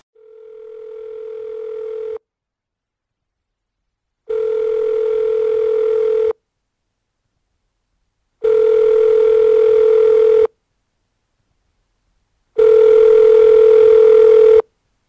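A telephone line tone sounds in four long, steady, mid-pitched beeps of about two seconds each, separated by equal silent gaps, the first one swelling in from quiet; no voices.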